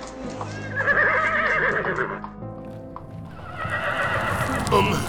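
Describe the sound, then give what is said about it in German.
Hooves of a horse-drawn carriage clip-clop steadily while a horse whinnies loudly over the rolling clatter, its neigh wavering in pitch before the hoofbeats carry on alone. “Rufen Sie mir nun eine Kutsche.”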